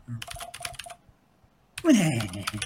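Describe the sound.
Clicky computer keyboard keys clatter in a quick burst of rapid clacks, then fall silent before someone starts speaking.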